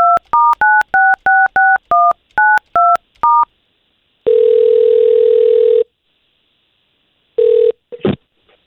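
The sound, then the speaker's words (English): Telephone keypad tones dial a call in a quick run of beeps, followed by a long steady ringing tone, a shorter second one, and a brief crackle on the line. “We're going to try to give her a call right now, okay?”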